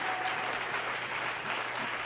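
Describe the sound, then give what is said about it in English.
Congregation clapping hands at a Wednesday church service: dense, steady applause fills the whole clip at an even loudness, with no single claps standing out. “Come on, clap your hands, all you people.”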